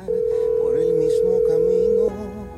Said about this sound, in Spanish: vamos a marcar a un oyente completamente en vivo. Recuerde, santo y seña y fuera. Marcamos por aquí, por aquí, por aquí, por aquí, por aquí.